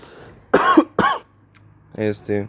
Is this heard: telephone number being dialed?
no

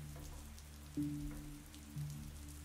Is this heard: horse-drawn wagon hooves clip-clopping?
no

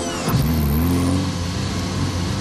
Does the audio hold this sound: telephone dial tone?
no

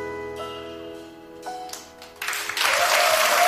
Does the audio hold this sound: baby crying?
no

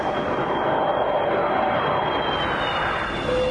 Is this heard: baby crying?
no

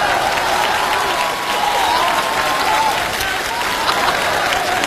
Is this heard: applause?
yes

